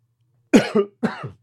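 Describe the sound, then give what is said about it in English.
Coughing after choking on something that went down the wrong pipe: two sharp, throaty coughs, each breaking into a quick double burst, alone against silence. “Excuse me, y'all, just messed up the vibe. My bad. I choked. Went down the wrong pipe.”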